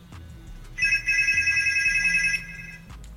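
An incoming call sets a telephone ringing: a bright, warbling electronic ring lasts about a second and a half, over a low background hum, with no voices.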